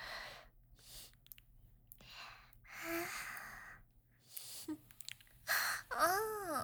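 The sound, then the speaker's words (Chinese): Heavy, drawn-out inhales and sniffs, a series of breathy rushes of air with short pauses between, soft and close, ending in a brief voiced moan-like sound. “你吸气好重啊”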